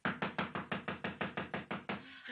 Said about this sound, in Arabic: رباه، من هذا الذي يطرق علينا الباب في مثل هذه الساعة من الليل؟ رباه، ما هذه؟ طرقات زائر يبشر بخير. من الطارق هكذا؟